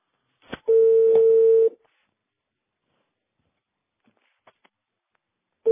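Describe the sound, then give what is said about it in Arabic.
A telephone line sounds a click and then a steady mid-pitched tone lasting about a second. Near-silence follows with a few faint clicks, and the tone starts again at the very end. “ما ادري عاد تقدر اطلب من هذا ولا لا؟ يلا يلا طلع الخط.”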